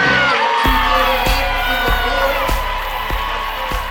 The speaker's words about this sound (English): A riled up Cameron crazy type of atmosphere here for the girls' game.